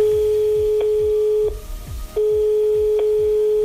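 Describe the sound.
A telephone line tone on a call: a steady, single-pitched electronic tone broken by short clicks and one longer pause midway, sounding over a low, rhythmic thumping beat.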